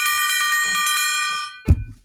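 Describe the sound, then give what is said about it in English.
A rolling chair bumps into a desk with a single short, low thunk near the end. “Ow. Rolled into the desk.”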